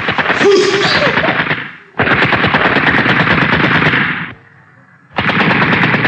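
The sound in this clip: A captured German submachine gun fires rapid automatic rounds in three sustained bursts separated by brief gaps. The shots are loud and sharp and run as continuous rattling strings rather than single shots.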